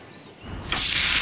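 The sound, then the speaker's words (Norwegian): A Big Beefy Burger sizzles on a grill. A soft hiss swells sharply after about half a second into a loud, steady, bright sizzle that holds to the end, with no voices. “Hører du det, Heidi? Det er lyden av en grill. Perfekt Big Beefy Burger.”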